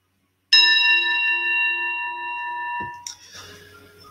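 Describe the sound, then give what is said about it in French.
A Tibetan singing bowl is struck once and rings with a bright, steady cluster of sustained overtones for about two seconds before the tone is abruptly cut off, leaving quieter noise behind. “Il y a en face de moi un outil que vous ne voyez pas qui s'appelle le bol tibétain.”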